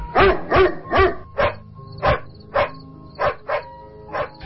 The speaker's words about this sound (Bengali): চিৎকার শুনে মনে হল কুকুরটা ভয়ে চিৎকার করছে।